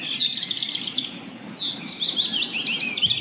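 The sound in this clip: Songbirds singing at dawn, with thrushes such as the song thrush, blackbird and mistle thrush among the first to begin; many bright, overlapping high whistles and chirps run continuously as a lively chorus.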